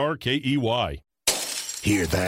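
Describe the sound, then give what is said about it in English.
Glass shatters as thieves trash a house during a break-in: a single brief, bright crash after a short silence, with a person talking before and after it. “That's the sound of a house being trashed while a gang of thieves ransack the place.”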